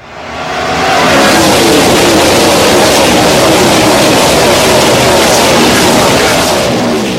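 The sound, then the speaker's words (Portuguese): A NASCAR race car engine roars as the jingle opening a race segment. It fades in over the first second, then holds a loud, dense, unbroken roar to the end. “coloca um carrinho aí de NASCAR, nossa vinheta aí para abrir a corrida que o Nelsinho Piquet disputou em Mid-Ohio.”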